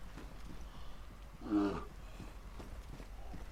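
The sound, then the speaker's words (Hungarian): A bear in a zombie video game lets out a single short, low roar that rises briefly above faint, steady background game noise. “Hoppá, medve!”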